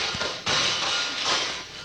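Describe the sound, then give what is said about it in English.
A thump in a house, blamed on mice: a sudden loud, noisy knock followed by a rough, rumbling wash of sound that fades slowly. “Oh, dear. What was that? Mice. Mice? Well, just a couple of them, of course.”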